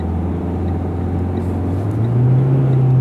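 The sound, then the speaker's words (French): A car engine drones as the driver accelerates through a gear change while joining an expressway. The low, steady hum steps up in pitch and grows louder toward the end, with no voices. “Il faut arrêter d'accélérer quand je change la vitesse, c'est pour ça que ça fait du bruit.”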